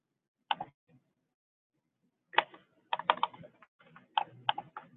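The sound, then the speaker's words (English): Computer keyboard keys are pressed to advance presentation slides. The quiet, sharp clicks come as a few isolated taps, then in quicker irregular clusters, with no talk. “You just need to click on the screen or the space bar or the cursor key.”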